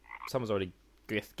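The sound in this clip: A frog croak sound effect from the video game Frogger: faint, short low croaks mixed in with quiet talking.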